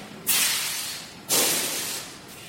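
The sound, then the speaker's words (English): Dome valves open in the ash and dust plant of a power station, releasing dust from a hopper, in two sudden, loud hissing bursts. Each burst starts sharply and then tapers over about a second above a steady background roar. “that's these dome valves opening up to allow the dust to come down from the hopper down into the valve itself, and then it will be transported with air out across.”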